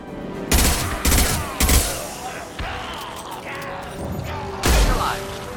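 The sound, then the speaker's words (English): Pistol gunfire in a video game: three sharp, loud shots in quick succession, then a softer one, and a final loud shot after a pause. “Wow, this pistol really packs a punch.”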